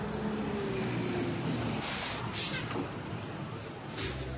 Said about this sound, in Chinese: 五路公交车马上就要进站了，请大家自觉排好队。